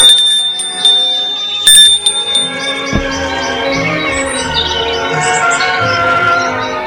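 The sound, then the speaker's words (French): Bell-like ringing of a doorbell: sustained, layered tonal chimes hold steady throughout, joined by bright chirping tones and a couple of sharp clicks, with no voices. “Un après-midi, il sonne chez Danville pour avoir des nouvelles.”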